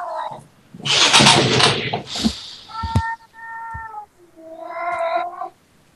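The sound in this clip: A cat meowing a few times, drawn-out tonal cries with a burst of louder, rougher noise before them.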